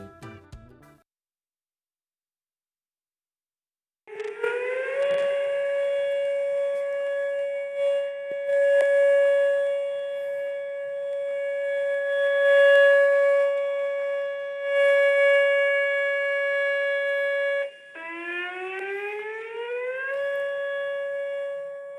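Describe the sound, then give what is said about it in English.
A Cobb County tornado warning siren sounds after a few seconds of near silence. It holds a loud, steady multi-tone wail, then dips and climbs again near the end. “that's actually pulled from Cobb County tornado siren there”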